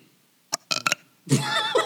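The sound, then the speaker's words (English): A person burps: a few short, clipped bursts are followed by a longer, rough, throaty belch that lasts about half a second. “Do I need to show what a real burp sounds like?”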